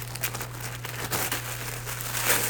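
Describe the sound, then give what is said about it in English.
Crinkling and rustling of wrapping paper as a small wrapped Christmas ornament is opened: a steady run of crackles and crisp rustles over a few seconds, with no talking. “I'm opening the ornament first.”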